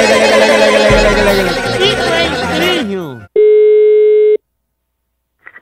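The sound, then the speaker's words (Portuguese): Telephone busy tone after a dropped call: loud, agitated talking, then a single steady electronic beep of about one second that cuts off into silence. “A ligação caiu”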